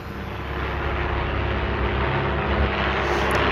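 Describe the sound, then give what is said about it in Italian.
Airplane droning in the sky, a steady, dull, broad engine roar that swells slightly at first and then holds an even, continuous level with no other sounds. “ho colto che si trattava di un aereo che ronzava qua e là”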